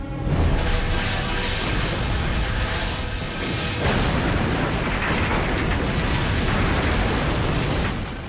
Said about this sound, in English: Stand by to fire forward beam. Oh my. Fire.